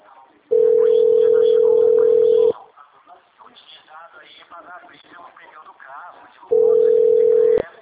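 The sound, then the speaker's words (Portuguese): A mobile phone rings with two long, steady single-pitch tones, the first about two seconds and the second shorter, with quiet talk in between. “Pera aí, é celular. Só um minutinho, pera aí.”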